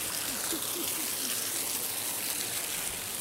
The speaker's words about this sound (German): man kann jetzt von hinten unter den Wasserfall, hier tropft es nur ein bisschen